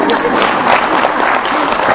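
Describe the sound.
Audience applause at a Buddhist monk's dharma talk: a dense, steady clatter of many hands clapping that runs unbroken from start to finish without fading.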